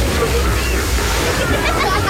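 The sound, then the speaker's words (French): Water splashing from aquatic play features at a Granby water park, a dense, continuous sloshing and spraying wash that stays loud and even throughout. “Aux eaux de Granby, c'est pas l'ambiance qui manque. Mais si on enlève les splouches de nos nouveaux jeux aquatiques, les splashes, puis les rires,”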